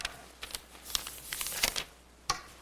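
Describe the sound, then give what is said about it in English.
Crisp rustling and crinkling of paper pages as a printed sermon is opened, a few short, soft crackles spread irregularly with quiet gaps between them and no voices. “Let's open up the printed sermon then, and let's start.”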